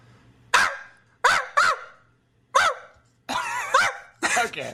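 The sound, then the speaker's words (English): Dog barking: several short, sharp, bark-like bursts in an uneven rhythm, with a couple of them close together. “This is a dog. This is the dog.”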